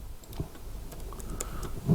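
Someone types on a computer keyboard, producing many faint, irregular key clicks in quick succession over a low background hum.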